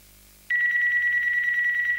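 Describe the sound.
An electronic telephone ringtone starts abruptly after a quiet moment and sounds as one steady, bright, slightly trilling tone for about one and a half seconds at an even, fairly loud level.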